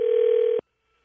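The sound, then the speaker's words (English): A telephone tone as a call is placed: a single steady, buzzy tone lasting about half a second that cuts off abruptly into silence. “Calling Dick Van Patten star of Eight is Enough.”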